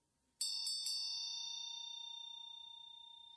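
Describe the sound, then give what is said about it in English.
A bell is struck once and rings out in a clear, high, sustained tone that fades slowly over about three seconds, with no voices present. “Each time the bell rings, let there be an embodied response.”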